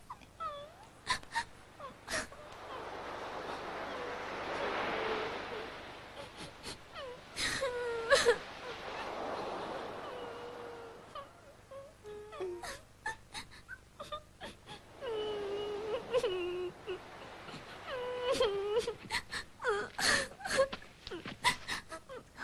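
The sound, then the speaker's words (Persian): Someone cries in faint, drawn-out wails and whimpers, coming in several bouts separated by short pauses. A soft background noise swells and fades beneath them. “انگار یکی داره گریه میکنه”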